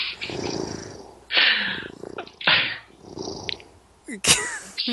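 A person imitates a cat purring, producing a few rough, breathy, rattling bursts separated by short pauses.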